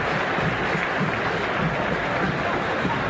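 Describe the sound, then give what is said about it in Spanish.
Stadium crowd applauding at a football match as the first half ends, a dense, steady wash of clapping and crowd noise holding at an even level throughout, with no distinct voices standing out. “aplausos para River”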